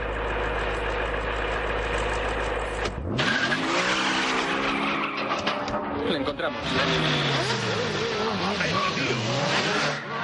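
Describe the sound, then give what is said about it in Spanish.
Motorcycles race past during a car chase in an action film, a loud, dense roar of revving engines with skidding tire squeals. “pasan los motoristas. ¡Mierda! Una persecución.”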